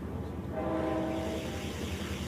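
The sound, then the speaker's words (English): A train runs fast on flat track, making a steady rumbling roar throughout. A brief horn tone sounds over it in the middle, and the whole clip stays fairly quiet. “Trains running hard on the flat. And then we go into a tunnel.”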